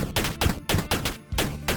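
Rapid shots from a pellet gun in a web-based video game, several loud bursts in quick succession with brief gaps between them and no voices.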